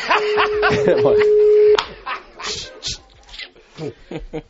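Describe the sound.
A telephone line tone sounds while a call is being placed, one steady, even-pitched tone holding for about two seconds under people talking, then the talk carries on without it.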